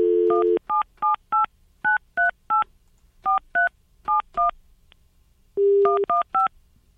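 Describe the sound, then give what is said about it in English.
A telephone number is dialed on a keypad. A steady tone comes first, then quick clusters of short beeping key tones. A second steady tone follows, and a few more key tones end it. “Let's dial him up.”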